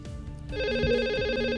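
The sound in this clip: A telephone rings for an incoming call: a loud, steady electronic ring with a rapid warble starts about half a second in and holds to the end, after a brief stretch of faint low sound.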